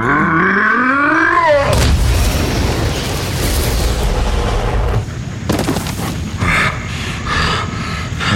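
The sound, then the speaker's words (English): A heavy punch impact from a superhero fight scene hits as a booming crash after a warbling, rising whine, then spreads into a long, loud roaring rumble, with more crashing bursts later. “Oh, you think you can survive another punch? Try me.”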